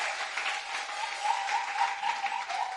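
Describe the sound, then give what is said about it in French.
Congregation applauding a choir at a church service: steady, continuous clapping at a moderate level that holds evenly from start to finish. “Can we clap ici? For the choir? Applaudissons pour la chorale.”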